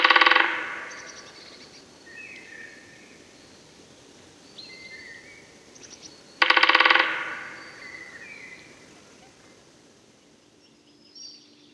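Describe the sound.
Great spotted woodpecker drumming: two short, rapid, crisp rolls about a second each, separated by a long pause, with faint high bird calls in between.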